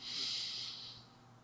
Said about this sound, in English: Exhale negative energy through your mouth.